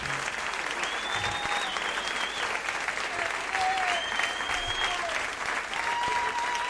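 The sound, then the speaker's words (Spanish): Loud, continuous audience applause at a live music performance with guitar, a dense, steady wash of clapping that lasts the whole stretch without a break. “Aplauso grande para el Pepe, maestro.”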